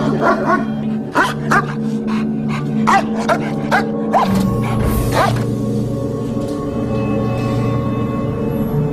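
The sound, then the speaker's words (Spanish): Dogs barking at night at the guarded perimeter of a military air surveillance squadron: many sharp, irregular barks for about four seconds, then a louder noisy burst, over a steady low hum. “los perros ladran, la sensación del miedo, y algo se aproxima”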